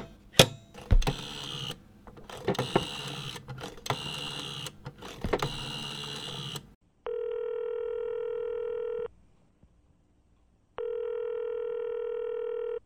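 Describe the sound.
A telephone is dialed to place a call: a run of irregular clicks and beeps, then two long, steady ringing tones separated by a silent pause.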